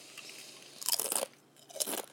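Crunching as kettle cooked jalapeno chips are bitten and chewed: two distinct bursts of loud, crisp crackling separated by a brief quieter gap.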